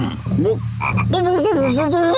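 Frog croaking in a few drawn-out, wavering croaks that run close together. The croaks are fairly loud and steady and sit over a low continuous hum.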